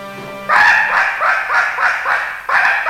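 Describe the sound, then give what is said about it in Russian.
A hunting dog barks at hunters in a loud, steady series of sharp, harmonic barks, repeating about every half second. “этот паршивый пес, что нас за зайцев принимает, что ли? Лает на нас.”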